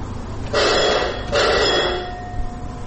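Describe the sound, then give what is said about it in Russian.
An electric bell signals that a cable car serving a mine is ready to depart. It gives two long, loud rings back to back over a low steady hum. “Этот звонок означает, что канатка, доставляющая людей к одной из шахт и обратно, готова к отправлению.”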